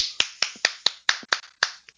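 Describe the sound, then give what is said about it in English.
A series of sharp, crisp hand claps from one person, snapping out in an uneven rhythm of about ten bright hits, each decaying quickly into quiet. “I hope that was you clapping and not you masturbating. No, it's me clapping.”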